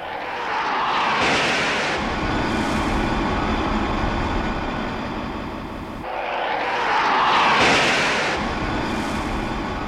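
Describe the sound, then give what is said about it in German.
A military jet lands on an aircraft carrier deck, catching an arresting wire at about 200 km/h; a broad, loud engine roar swells twice, with no voices. “Soeben hat wieder eine Maschine das erste der 6 über Deck gespannten Seile erfasst.”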